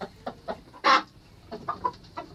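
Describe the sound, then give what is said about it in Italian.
A chicken clucks in a few soft, short calls, with one louder, harsher squawk standing out among them. “Ah, c'è già la gallina, non domani, anche oggi.”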